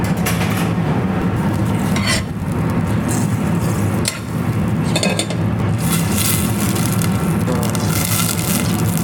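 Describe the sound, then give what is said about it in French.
Butter melting and foaming in a heated saucepan gives a steady, loud sizzling hiss throughout, broken by a few light clinks of a utensil against the pan, with no talk. “Donc là, j'ai fait chauffer ma casserole. Là, je vais rajouter hop, une petite noisette de beurre, un petit peu plus, hop. Voilà. On va laisser ça chauffer gentiment.”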